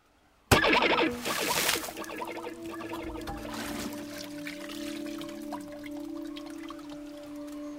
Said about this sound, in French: Revenu sur terre, mais pas sur la terre ferme. Je suis tombé à l'eau.